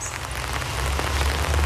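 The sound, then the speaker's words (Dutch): Rain falls steadily at a graveside, a continuous dense patter and hiss over a low rumble, growing slightly louder. “Sta ik dan in de regen?”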